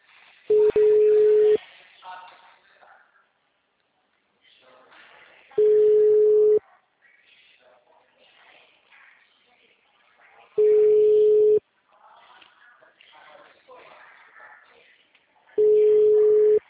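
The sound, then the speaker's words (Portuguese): Telephone ringback tone while calling someone: four steady beeps, each about a second long at one even pitch, spaced roughly five seconds apart, with faint low background sound between them. “Tá, tô ligando pra ela aqui.”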